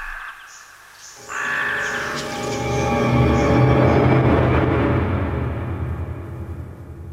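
Magpie chattering: harsh, rasping, rattling calls that burst in after about a second and continue loudly and densely to the end, with no voices.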